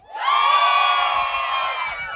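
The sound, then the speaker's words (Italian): Audience screaming and roaring on the host's cue at a dance party, a dense, loud, high-pitched mass of shrieks and whoops that swells up quickly, holds for about two seconds and eases slightly. “Se io vi chiedo un urlo, è un boato. 1, 2, 3!”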